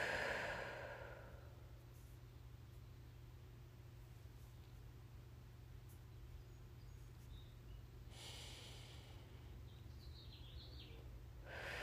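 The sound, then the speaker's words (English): A slow, deep breath in and out during a guided meditation, soft and airy, with one breath at the start and another near the end, separated by a long quiet stretch over a faint steady hum. “Deep breath in and out.”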